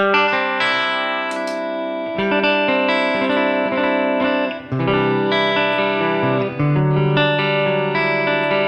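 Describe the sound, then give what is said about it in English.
Electric guitar played through spring reverb and a pedal-controlled tremolo on a Helix modeler, with Deluxe 1x12 and Princeton 1x10 cabinets. Sustained chords and ringing notes overlap in a steady, full wash, with one brief dip in volume. “I've got a reverb going. Spring reverb. That's in between the amp and the cab. Also between the amp and the cab is a tremolo, which I have tied to the expression pedal.”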